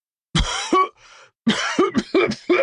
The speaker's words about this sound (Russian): Закашлял второй, потом третий, четвертый, пятый.